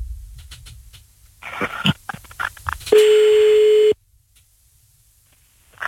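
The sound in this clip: A telephone ringing tone plays while a call is placed: one loud, steady, mid-pitched tone lasting about a second, preceded by brief rustling and clicks, then quiet.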